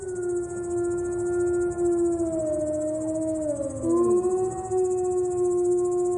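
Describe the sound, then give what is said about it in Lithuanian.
Wolves howl in long, sustained, loud tones. The howls glide gently downward, and a second overlapping howl joins in partway through, rising briefly before both hold steady again. “Oi, kas čia? Tai vilkas.”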